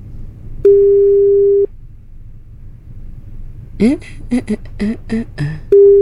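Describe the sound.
Ringback tone of an outgoing telephone call: a steady mid-pitched tone lasting about one second, a pause, then the tone beginning again at the end, with brief voice sounds in between over a low rumble.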